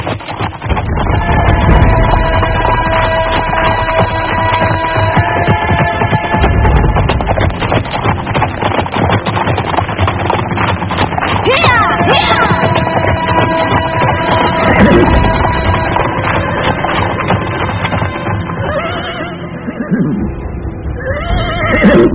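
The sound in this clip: Horses being ridden and neighing: whinnies rise out of a dense, loud, continuous background that runs throughout.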